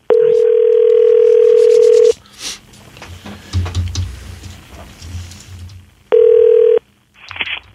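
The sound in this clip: Steady telephone dial tone on a call being placed from a medical clinic office, heard in a sustained stretch of about two seconds, then a gap of faint shuffling and handling noise, then a shorter burst of the same tone.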